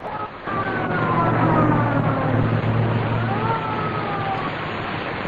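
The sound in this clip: Ambulance sirens wailing during a street shooting, their tones slowly sliding up and down through a dense, loud wash of noise that continues steadily throughout.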